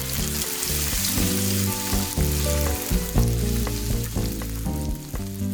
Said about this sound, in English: let us step back for a moment and consider, in that light, one of life's greatest pleasures. Bacon.